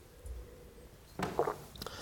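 Someone takes a sip of red wine during a tasting, making a short, wet slurp with faint mouth noises around it.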